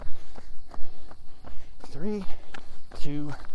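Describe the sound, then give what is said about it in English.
Footsteps of someone walking up a hill, a steady even rhythm of many soft thuds at a moderate pace, continuing through the whole stretch. “a few more steps and we'll cut this down to a walk.”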